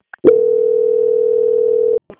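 A telephone tone plays while a bank call is being transferred: one steady mid-pitched tone holds evenly for nearly two seconds, with brief faint clicks just before and after it.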